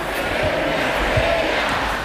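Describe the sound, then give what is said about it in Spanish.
A crowd chanting a footballer's name at a team's title celebration, a loud, dense roar of many voices that continues throughout. “pidió ayuda al público para cantar su canción. ¡Cucurella! ¡Cucurella!”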